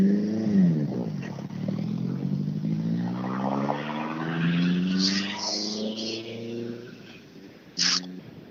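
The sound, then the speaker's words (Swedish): An Opel Ascona B rally car drives away from a motor-club event onto a main road, its engine droning steadily with the pitch climbing as it pulls off, then holding and slowly easing toward the end. “Wille rullar iväg med sin Ascona B på riksväg, är det inte 24? ner mot Hässleholm igen.”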